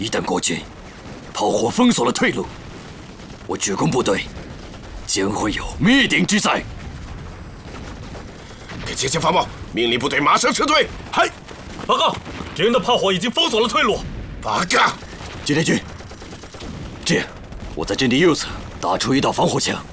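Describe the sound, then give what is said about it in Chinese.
Booming artillery fire and gunfire in a war drama battle scene with tanks under attack, irregular blasts mixed beneath urgent shouted dialogue in Chinese. “炮火掩护，敌人火力太强，又有两辆坦克被摧毁，请求炮火支援。”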